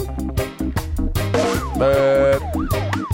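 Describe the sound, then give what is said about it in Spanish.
An ambulance siren wails in repeated rising and falling sweeps, loud over a thumping rhythmic beat. “Ambulancia, ambulancia.”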